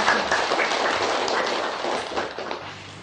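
Applause from the assembly at a Buddhist summer retreat welcoming visiting monks from An Quang pagoda in Ho Chi Minh City. The clapping is dense and steady and slowly thins out toward the end.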